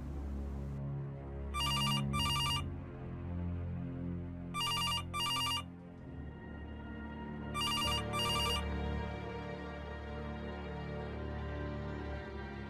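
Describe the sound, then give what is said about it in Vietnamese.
A telephone rings in three bursts. Each burst is a quick double ring, with clear pauses between bursts, over a low sustained background. “Vừa lúc ấy có tiếng chuông điện thoại reo vang.”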